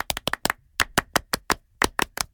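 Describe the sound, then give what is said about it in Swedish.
Rhythmic French-style applause, a small group clapping crisp, sharp claps in quick bursts separated by short pauses, with no voices over it. “Vi kan ge Fredrik en stor fransk applåd. Det tycker jag. Un, deux, trois.”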